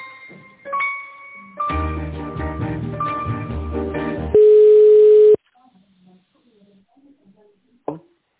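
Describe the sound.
Telephone line tones as an office call is put through to another department: a few short tones, a dense stretch of layered tonal sound, then one long steady beep, followed by near silence and a soft click.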